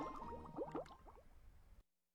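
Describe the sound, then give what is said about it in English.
Bubbling liquid in a laboratory, faint gurgling pops with short pitched glides that thin out before cutting off abruptly into silence. “Wow, Bubbles from the Laboratory.”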